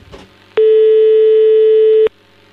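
A telephone ringing signal sounds while a call is being placed: one loud, steady, pure tone lasting about a second and a half, heard alone with only faint noise before and after.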